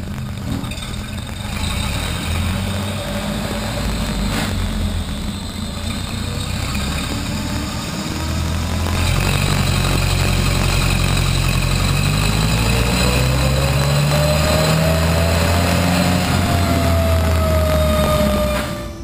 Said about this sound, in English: We got the engine warmed up to good temp now. So we're gonna roll another one, and I'm gonna put all the timing in it